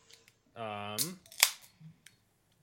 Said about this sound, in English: Well, I'm going to crack this open and try to describe it, I guess.